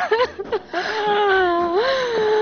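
A woman cries in wavering, sobbing wails: short broken bursts give way to a long quivering tone that dips and then rises again.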